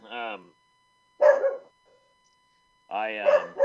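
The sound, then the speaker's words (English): A dog barking in a few short, yappy, whiny bursts separated by silence, the last one longer and louder. “Excuse my beautiful dog.”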